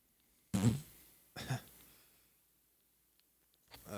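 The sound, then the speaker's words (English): A fart: two short raspy bursts, the first louder with a low buzzing tone and the second weaker. Quiet follows, then a faint noise near the end. “He farts.”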